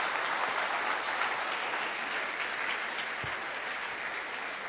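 Applause from a church audience, dense steady clapping that fills the whole clip at an even, moderately loud level, with no voices over it.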